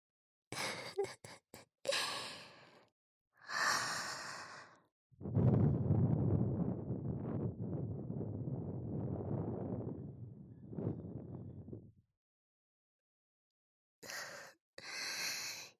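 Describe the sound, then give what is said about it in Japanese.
A soft breath blown close into the listener's ear: a long, airy, gently gusting stream lasting about seven seconds, with shorter breathy puffs before and after it. “君の穴の中、私の吐息で満たされて、赤くなってるのがわかるぞ。もっとふうふうしてやろうか。”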